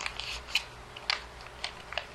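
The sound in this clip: Paper being folded again along a crease, a handful of crisp, dry crackles spaced out at irregular intervals against a quiet background.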